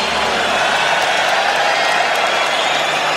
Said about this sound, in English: applause for all the clients.